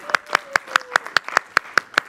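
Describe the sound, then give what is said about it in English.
Hand clapping welcomes a volunteer who will lead the Pledge of Allegiance at a meeting: ten crisp, evenly spaced claps in a steady, fairly quick rhythm. “Put our hands together”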